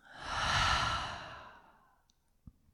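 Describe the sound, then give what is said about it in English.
A huge breath at the close of a guided meditation, heard as one breathy sigh that swells and fades over about two seconds, followed by a soft tap. “Huge breath in. Huge breath out.”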